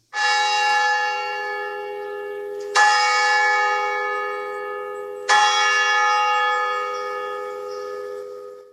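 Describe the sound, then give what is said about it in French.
A church bell rings the Angelus live, three loud strikes spaced evenly apart, each leaving a rich, sustained tone that slowly fades, with nothing else heard. “19h sur Radio Espérance, heure de l'Angélus. Il est maintenant l'heure de sonner cette prière en direct.”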